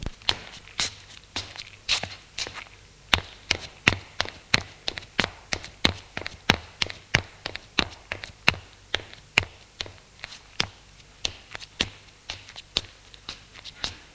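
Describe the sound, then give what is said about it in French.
Footsteps of people climbing up stairs: many crisp, sharp steps in a quick, slightly uneven rhythm, fairly faint and with no talk. “Ils montent à l'étage.”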